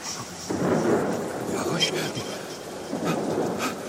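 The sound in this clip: Heavy rain with thunder, a dense, loud, steady hiss that swells after the first half second and carries on throughout.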